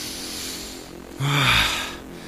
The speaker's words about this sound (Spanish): ¡Qué bien se respira aquí afuera!